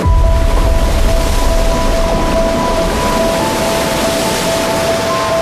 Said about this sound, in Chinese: 3台世界上运行速度最快的起步机依次开启，超过15万立方米的水从船闸闸室中依次涌入高位